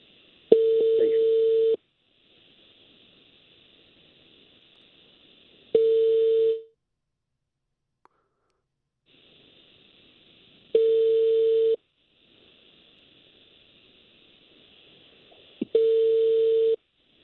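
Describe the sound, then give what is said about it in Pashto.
Ringing tone of an outgoing mobile phone call, four steady electronic tone bursts about five seconds apart with near silence between them. “شوکت زوی صاحب ته ټلیفون روان دی”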